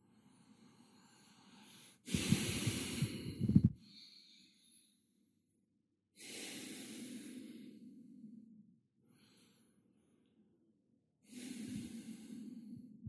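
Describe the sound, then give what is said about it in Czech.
Long, deep breaths in and out during a guided breathing exercise: slow, airy rushes of breath, a few of them, each lasting a second or more and separated by quiet pauses, with no talking over them. “A naplňte tělo dechem co nejvíce. Nádech a výdech tak dlouhý, jak jen dokážete.”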